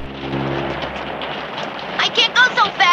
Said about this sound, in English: uses her handbag to shield her head from the heavy rain